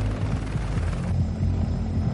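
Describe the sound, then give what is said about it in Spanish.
A helicopter descending to land, heard as a steady, deep rotor rumble with a low pulsing beat that continues unbroken through the short clip. “El helicóptero desciende.”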